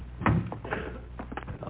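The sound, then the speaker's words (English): An original prop cab door used as a radio sound effect opens with a quick latch click and thump, followed by several softer knocks and rattles. “Open the cab door there. You open it up.”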